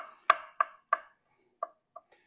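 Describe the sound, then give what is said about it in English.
A sharp knife dices a green chili on a cutting board. About six crisp, separate chops come at an uneven pace, with a pause in the middle, fairly faint and with no talking. “We want this green chili diced up. My knife's pretty sharp, so I don't have to worry too much.”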